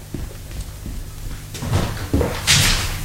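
A door is opened to let in the post: a few soft clicks and knocks, then a brief airy scrape near the end over a low, steady hum.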